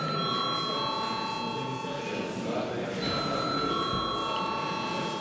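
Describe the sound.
An electric bell rings in a parliament chamber before a vote, a steady metallic ring with bright, sustained tones held for several seconds over continuous background noise.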